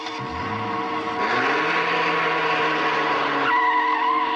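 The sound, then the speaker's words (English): A car engine runs as the car speeds away, giving a steady, loud roar with a whining tone. Broad road or tyre noise sits underneath, and there is no talk. “the boys watch the car speed away. I can't stop the car.”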